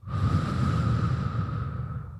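One deep, airy breath swells quickly and holds for about two seconds before tapering off, with a faint steady tone underneath.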